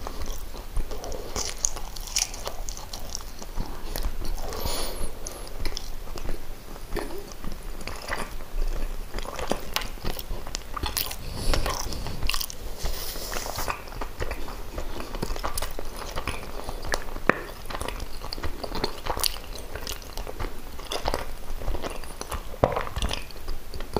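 Someone bites into and chews a bread roll with sausage and cheese, producing many crisp, crunchy bites and steady chewing noises that continue throughout, with no talking.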